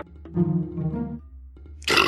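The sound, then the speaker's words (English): A single long, loud, low-pitched burp rumbles with a rough, throaty tone for nearly a second. “One burp deserves another. I'm sorry, you guys saying something? I couldn't hear you over the burp.”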